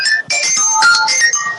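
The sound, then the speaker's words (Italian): A phone ringtone sounds for an incoming call: bright electronic tones in a short melodic pattern that breaks off briefly, then continues steadily to the end. “scusate che non posso adesso rispondere perché mi chiamano”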